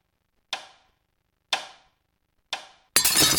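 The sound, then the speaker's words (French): Sound effect of a watch being broken: three sharp, bright clinking hits spaced about a second apart, each ringing briefly, then a sudden burst of dense, noisy crashing. “Non, non, pas casser la montre. Beat the clock.”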